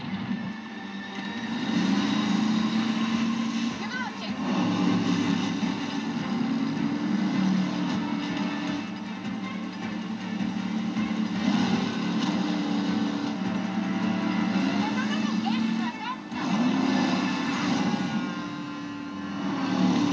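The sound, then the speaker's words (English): Engine of a motorboat speeding along the water: a loud, continuous droning roar whose pitch wavers, swelling and dipping repeatedly for about twenty seconds. “And everybody in the boat is just so cool as it's speeding, you know, along the water.”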